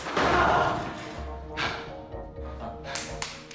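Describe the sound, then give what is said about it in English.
A belt whacks a vent and its buckle catches a flap and pulls it open. A heavy thud is followed by a few sharper, muted hits and scraping. “whacks the vent with the belt, catches one of the flaps with a buckle, and pulls it open.”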